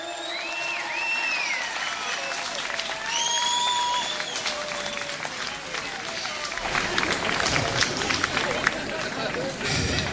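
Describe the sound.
Audience applauding, cheering and whistling at a rock concert: dense, sustained clapping with shouts and several rising and falling whistles early on, and the clapping grows louder and busier toward the end.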